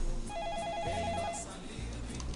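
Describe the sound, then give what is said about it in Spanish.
A telephone rings in a radio studio booth with one burst of rapid, high electronic trilling that lasts about a second and then stops, leaving a low background hum. “vamos a ver quién nos llama aquí a cabina. Vamos a contestar.”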